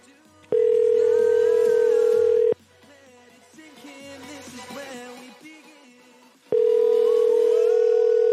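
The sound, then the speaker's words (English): A telephone dial tone sounds after a call drops, a steady, unbroken single-pitch tone in two long stretches, with muffled voices and background noise in the gap between them. “Hello? Ma'am, hi. The phone got disconnected there. I'm sorry about that.”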